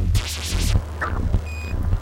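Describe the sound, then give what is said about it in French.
The radio transmitter of the small Sputnik 1 satellite beeps in a run of short repeated pulses over a low rumbling drone, with a brief steady tone near the end. “le bip-bip caractéristique de l'émetteur radio du petit satellite répond”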